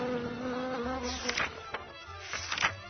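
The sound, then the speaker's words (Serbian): Bees buzzing around flowering plum trees: a steady low droning hum that swells and fades as insects pass, with a few brief crackles and no voices. “Cvetanju šljiva najviše se raduju pčele. Svojim bojama i oblikom cvetovi privlače ove insekte.”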